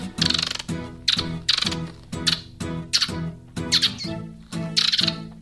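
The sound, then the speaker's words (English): A person's voice imitating squirrel noises with the mouth: many rapid, raspy chattering bursts in quick, uneven succession, sharp and loud with short gaps, sounding chirpy and squeaky. “And how to make authentic squirrel noises with your mouth.”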